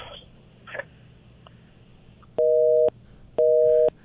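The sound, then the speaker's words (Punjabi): Telephone busy tone after a dropped call: two steady, evenly spaced beeps of equal length, preceded by faint low background noise. “ਤੁਹਾਡੀ ਜਿਹੜੀ ਹੈ 4422 ਤੁਹਾਡੀ ਕਾਲ ਕੱਟ ਗਈ ਹੈ, ਤੁਸੀਂ ਦੁਬਾਰਾ ਜ਼ਰੂਰ ਕਰ ਸਕਦੇ ਹੋ।”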